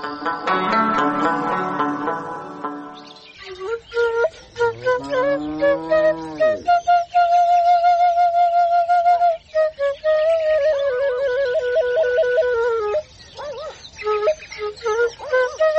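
A shepherd's flute (shpelai) plays a melody of sustained, wavering whistle-like tones with strong vibrato, moving between held notes and quick runs. It follows a dense, harmonically rich passage at the start.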